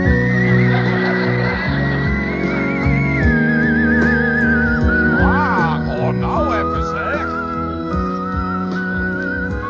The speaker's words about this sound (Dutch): Ik ga eens proberen om links te fluiten.